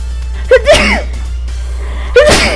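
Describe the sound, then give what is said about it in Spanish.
A small human sneeze: a short, sharp burst with a gasping intake, then a second similar burst a moment later. It is fairly loud and stands alone with no talk. “Perdón, un pequeño estornudo.”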